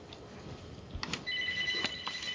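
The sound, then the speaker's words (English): A telephone rings quietly in the background with a steady, bright electronic trill that starts partway through and repeats over a low hum. “I apologize for the phone ringing in the background.”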